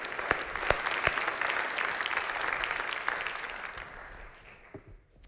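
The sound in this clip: An audience applauds to welcome three testimony givers at a morning fellowship service, steady dense clapping with scattered sharper claps that thins and fades out near the end.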